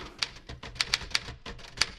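A Remington typewriter clatters through a few irregular keystrokes, each a sharp, bright tap, rather faint and unevenly spaced.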